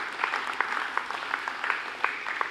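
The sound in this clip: Church audience applause as the speaker's son is welcomed to the stage: steady, even clapping of moderate loudness that continues throughout without a break.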